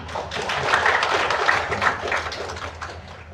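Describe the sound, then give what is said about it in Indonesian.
Applause from an audience at a Padang city government event: a dense, steady wash of many hands clapping that holds for the whole span and eases slightly near the end. “Itu, itu kita berikan aplaus buat.”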